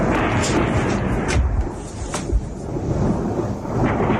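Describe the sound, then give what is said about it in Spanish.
Gunshots ring out during a night-time shooting at a rave festival in northern Switzerland, with a few sharp cracks punching through a dense, continuous rumbling noise. “Es el sonido de los disparos que se han producido esta noche en esa fiesta, en ese festival.”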